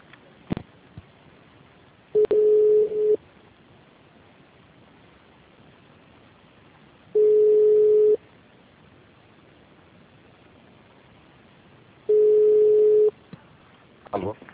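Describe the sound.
A steady mid-pitched telephone line tone sounds while a call is being transferred, in three separate one-second pulses spaced about five seconds apart, with a faint hiss between them and a few soft clicks near the start and end.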